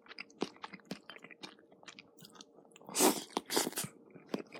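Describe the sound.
Soft chewing of macaroni salad mixed with chopped boiled egg, mayonnaise and sauce: quiet, wet mastication with small crunches, swelling into two louder bites midway before settling back to faint chewing.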